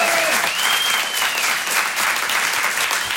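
Audience applause and cheering at a French stand-up comedy show: dense, steady clapping fills the whole stretch, with a whistle rising briefly near the start.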